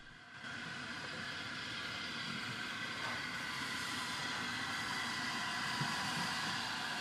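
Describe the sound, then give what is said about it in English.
The Flying Scotsman steam locomotive crosses a cast iron railway bridge over a river, a steady, dense rumbling roar that swells in at the start and then holds even for several seconds. “The Flying Scotsman steams across it.”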